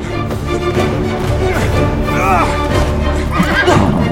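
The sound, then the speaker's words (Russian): Circus horses rear and whinny in their stable pens during a circus fire. Several loud, shrill neighs rise and fall, with hoof clatter underneath. “в своих загонах встают на дыбы цирковые лошади. Он выпускает их наружу. На выход! Пошла! Пошла!”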